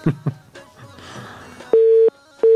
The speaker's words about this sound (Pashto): آها په تاسف سره د کشمن تاریخیل تماس قطع شو دوستانو، هیله ده چې بیا هم موږ سره تماس ونیسي